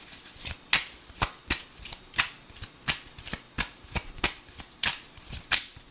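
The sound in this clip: Tarot cards being shuffled by hand: a steady run of many crisp, papery flicks and slaps in a loose, even rhythm, heard alone without talk.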